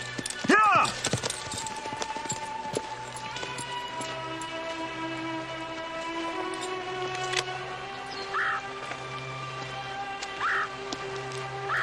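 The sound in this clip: Horse hooves clip-clop in a scene from a dubbed film. The steady, light clopping runs throughout, with a louder burst near the start and a few more accents later.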